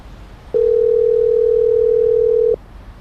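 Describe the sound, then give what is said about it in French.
A telephone dial tone as a call is placed: one steady, unbroken mid-pitched tone that sounds alone for about two seconds and then cuts off, with no voices. “je vous propose d'appeler notre correspondant canadien sur le terrain.”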